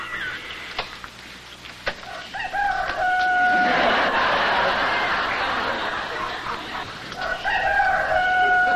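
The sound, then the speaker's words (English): A barnyard sounds relaxation tape plays a rooster crowing twice in long, harmonic calls over steady hen clucking and a noisy farmyard background. “What is that? Barnyard sounds. Is that supposed to be relaxing?”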